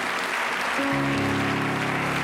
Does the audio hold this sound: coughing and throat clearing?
no